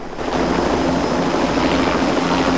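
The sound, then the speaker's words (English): A helicopter circling a high-rise building produces a loud, continuous rotor and engine drone that holds steady throughout without pauses. “From the viewpoint of a helicopter pilot circling one high-rise building”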